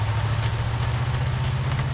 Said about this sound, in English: drives the Camaro out into the rain